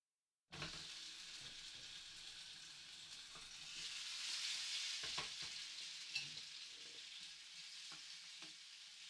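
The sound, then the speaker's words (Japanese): Hamburger steak and a fried egg topping sizzle in a pan: a steady, airy frying hiss begins after a short silence and swells a little midway, with a few faint clicks and pops on top. “あとはハンバーグとトッピングの目玉焼きを焼くだけなので、テーブルで待っててください。”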